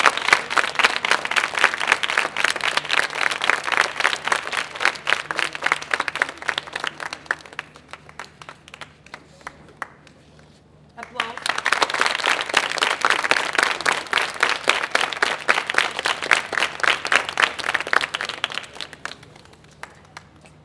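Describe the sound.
Audience applause in two rounds: a long, loud burst of dense clapping fades to a few scattered claps, then a second full round swells up and continues before tapering off.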